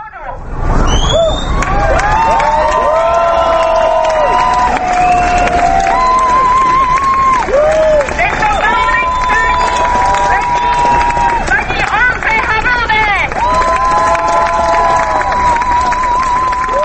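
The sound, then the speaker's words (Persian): A crowd of marchers in Prague retraces the route of the 17 November 1989 march, passing Václav Havel's former home by the Vltava. The noise is loud and continuous, with overlapping voices, shouts and calls carrying throughout. “در راهپیمایی به تقلید از 20 سال پیش مردم همان مسیر گذشته را طی کردند”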